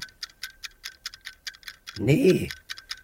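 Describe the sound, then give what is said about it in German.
An alarm clock ticks in a steady, rapid, even rhythm of many sharp, light ticks throughout, with a brief burst of a voice partway through. “Sie tickt wieder. Die Uhr tickt wieder. Das ist mir zu laut. Stell den blöden Wecker aus.”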